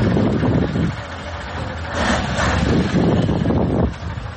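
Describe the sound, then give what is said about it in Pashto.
Heavy engine rumble from large trucks on the muddy, flood-damaged Uruzgan–Kandahar road as they pull small cars out of mud and ruts. The loud, continuous low drone is mixed with wind noise and eases briefly near the start and the end. “دا د اورزګان او کندهار د لیلاري پر سر غټ موټرونه دي چې د کوچني موټرو سره مرسته کوي ترڅو له لوړو او ژورو یې تیر کړي او له خټو یې راوځي.”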